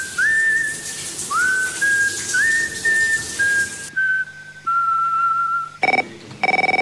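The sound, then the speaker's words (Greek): A person whistles in the shower: a sustained, clear melodic tune in several phrases, some opening with an upward slide. A rushing background fades partway through, and a few short, bright tones close it out. “Σφυρίζω, αλλά δεν θα το ξέρετε εσείς. Σφυρίζω και κάνω πολύ φασαρία, δυστυχώς.”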